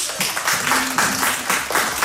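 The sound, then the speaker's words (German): Applause of a small group forms a dense, moderately loud patter of clapping lasting about two seconds, with slight pulsing swells and no speech over it. “Oh, wir kriegen Applaus.”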